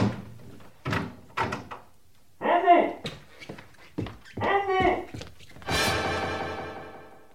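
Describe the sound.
A wardrobe door thuds shut on a man in a crime drama, a dull wooden knock set among stretches of spoken dialogue, with a few other brief knocks and bumps around the talk.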